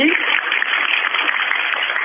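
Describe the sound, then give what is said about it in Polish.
Applause from a community gathering at a parish, a dense, steady wash of many hands clapping at an even level throughout, with no single claps standing out. “Duże brawa dla nich.”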